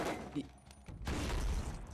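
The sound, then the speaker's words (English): A grenade launcher blows a door open. After quieter noise, a sudden loud blast hits midway and rolls on as a sustained, rumbling roar to the end. “That was the grenade launcher that they blew the door open.”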